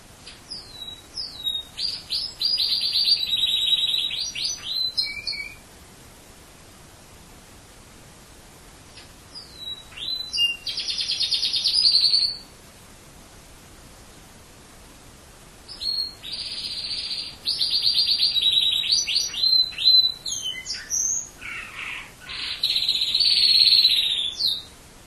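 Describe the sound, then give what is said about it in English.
A pet canary sings bright, high trills and chirps in several bursts of song separated by quiet pauses, with the singing heard alone and no talk. “That was the sound of my canary Hertz singing.”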